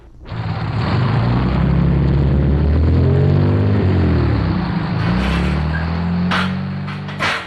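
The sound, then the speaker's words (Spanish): A car engine drones in a quiet alley as the vehicle approaches: a loud, steady low hum with strong harmonics that shift in pitch midway, then ease slightly toward the end. “¡Qué cachimbo es gente la que viene en ese carro!”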